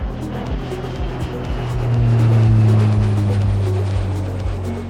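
Roar of a small jet taking off as part of a jingle: a loud, steady engine rumble that swells through the middle and eases toward the end, over a low, regular rhythmic pulse.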